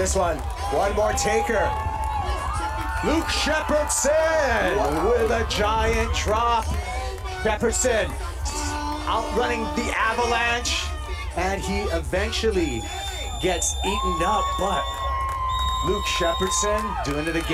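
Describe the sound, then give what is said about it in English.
Crowd reactions and cheering from spectators as an Oahu lifeguard rides a massive wave at the Eddie Aikau Big Wave Invitational, a steady roar running under excited male commentary. “That's the sound of reactions to Oahu lifeguard Luke Shepherdson surfing a massive wave during the Eddie Aikau Big Wave Invitational back in January.”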